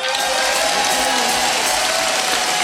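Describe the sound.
Audience applause and cheering at a live Latin music show make a continuous, dense roar of clapping with whoops, steady and loud from start to finish.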